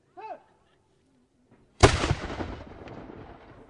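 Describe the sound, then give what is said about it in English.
A warning shot fired during a French and Indian War battle reenactment at Fort Ticonderoga. The single sharp, loud crack is followed by a long, rumbling tail that fades slowly, after a brief quiet lead-in. “They fire a warning shot. And then another.”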